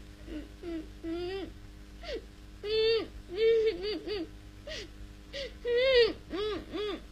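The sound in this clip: A person crying in faint, whimpering bursts: a string of short, wavering, high-pitched sobs and wails separated by brief pauses.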